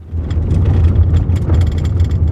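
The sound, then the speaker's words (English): A car drives up a rugged gravel road along a creek on a reservation in western Montana, its engine a steady low rumble that holds throughout without a break, with no talk. “Driving up a rugged gravel road along Pistol Creek on the Flathead Reservation in western Montana”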